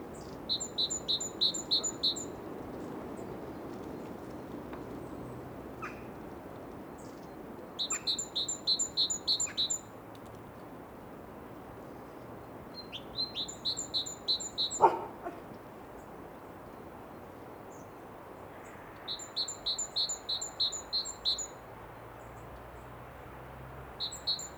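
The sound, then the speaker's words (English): Great tit calls come as repeated bursts of rapid, high, thin chirps, grouped in several series separated by pauses, over a steady background hiss. “Because there are a few calls that are highly characteristic of great tits. And they're usually quite visible. But then on the other hand, there's also, it has an enormous palette of sounds.”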